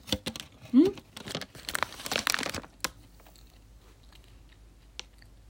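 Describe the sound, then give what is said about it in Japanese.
Crunchy bites and chewing of chocolate-covered crab-shaped bread, with crinkling noises: dense, irregular crackles for about three seconds, then mostly quiet apart from a faint click or two. “もうチョコの方がカニの形がもうチョコで覆われていてほぼ分かりません。いただきます。”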